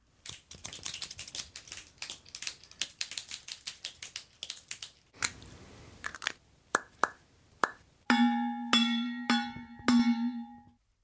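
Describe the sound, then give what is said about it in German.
Scissors snipping many times in quick clicks, pulled from a school bag, followed by a metal water bottle struck twice, each hit ringing out with a bright, sustained metallic tone. “Ich konnte eine Schere und eine Wasserflasche raushören.”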